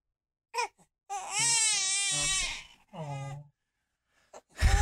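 An infant cries: a long, high, wavering wail, then a shorter second cry after a brief pause, with small vocal sounds before and a sudden louder burst at the end.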